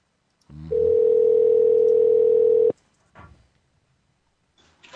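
Telephone tone as a call goes to voicemail: a single steady mid-pitched beep lasting about two seconds, followed by a few faint brief clicks and noises.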